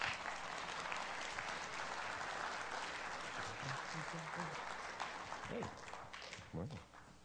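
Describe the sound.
Congregation applauding to welcome a pastor in church, dense steady clapping that eases off slightly near the end as voices rise over it.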